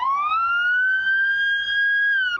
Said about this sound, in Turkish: Ambulans şu anda hastaya ulaşmak üzere yola çıktı ama hatalı parklar yüzünden ilerleyemiyor.